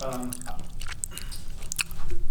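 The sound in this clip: Wet, squishy chewing of a Five Guys double-patty burger with tomato, lettuce, mayo and bacon, with moist smacking and a few sharp crunchy clicks from the bites.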